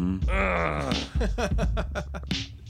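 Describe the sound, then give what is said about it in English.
A drawn-out, low vocal groan gives way to a quick run of short, voiced syllables. Both are fairly loud and up close. “Groan sound.”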